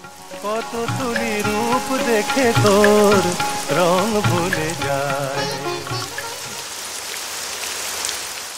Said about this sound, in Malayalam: കോരിച്ചൊരിയുന്ന മഴ ഈ പെയ്യുന്ന മഴയത്ത് ഞാനിനി എങ്ങനെ വീട്ടിൽ പോയി പറ്റും